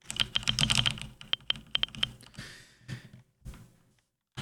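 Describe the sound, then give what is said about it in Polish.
Typing on a computer keyboard with Caps Lock switched on: many crisp key clicks in quick bursts at first, then thinning into a few scattered, louder presses, with no voices. “Jeśli ja teraz zacznę znowu pisać z włączonym Caps Lockiem, a mam ustawioną opcję zawsze. To. Jest. Test. Mamy taki dźwięk.”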